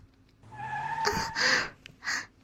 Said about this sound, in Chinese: 刚刚一个急刹车